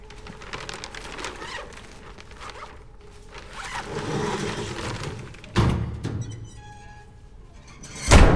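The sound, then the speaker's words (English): A body bag in a morgue is zipped closed with a long, rasping zipper pull. A heavy thunk and a low sliding rumble follow as the corpse is pushed into a drawer, ending in another loud thud. “She closes the body bag and pushes the corpse back into the drawer.”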